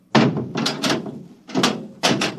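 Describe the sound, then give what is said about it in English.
A hatch is slammed shut before departure: a few heavy, hollow thuds and bangs with sharp onsets, separated by short gaps, each followed by a brief rumbling decay. “Well, you'll slam the hatch, and off we go.”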